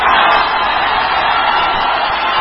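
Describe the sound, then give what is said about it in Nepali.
A crowd hoots at a party convention venue as two leaders arrive after a long wait, making a dense, continuous roar of many voices that stays loud and steady throughout. “निर्धारित समयभन्दा झण्डै 1.5 घण्टाको पर्खाईपछि रवि र बालेन महाधिवेशन स्थलमा पुग्दा सुनिएको hooting हो यो।”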